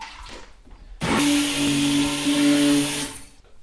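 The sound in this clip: An electric mixer whirs as it beats a warm melted soap mixture. After a quiet start the motor cuts in abruptly, holds a steady, loud high whine with a humming tone for about two seconds, then stops.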